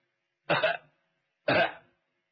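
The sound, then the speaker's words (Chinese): A person outside gives two short, dry coughs, evenly spaced about a second apart, with silence around them. “外头有人咳嗽”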